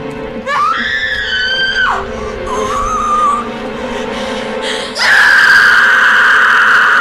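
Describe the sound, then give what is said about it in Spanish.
Two sisters scream together in unison in a horror film scene. The cries are loud, high and sustained, rise sharply at the start, and flare up again even louder near the end over a dense, noisy background. “Y ambas hermanas gritan al unísono.”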